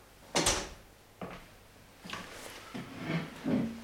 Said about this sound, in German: Darf ich mir den Stuhl nehmen?